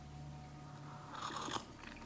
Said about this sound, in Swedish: Förlåt, jag måste dricka och inte bli torr i halsen.